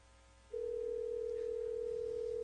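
A telephone dial tone sounds on a line while calling a caller back: a steady, unbroken mid-pitched tone starts after a brief stretch of low hum and holds evenly to the end.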